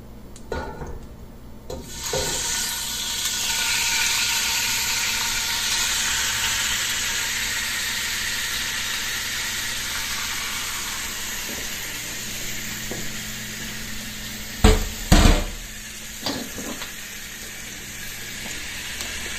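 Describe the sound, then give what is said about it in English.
Meat sizzles in a hot pan as it is slowly added and stirred with a meat fork. A broad, steady hiss swells early and gradually thins, with a few sharp scraping clatters near the end. “And I am just going to slowly start adding my meat.”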